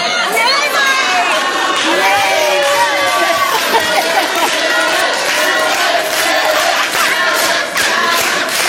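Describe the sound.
A studio audience chants in unison, loud massed voices sustained throughout with cheering and shouting mixed in.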